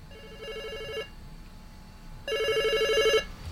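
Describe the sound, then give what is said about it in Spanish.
A telephone rings for an incoming call: two loud bursts of a bright, trilling electronic bell, separated by a pause of about a second. “Hay llamada telefónica.”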